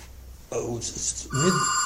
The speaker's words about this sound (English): I guess we better stop for the phone